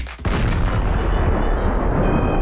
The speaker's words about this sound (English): Swings baseball bat at Bud Light and explodes it.